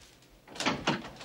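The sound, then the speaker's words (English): A front door being opened: two short clunks and rattles of the latch and door in quick succession after a quiet moment. “Then he goes to the front door and opens it.”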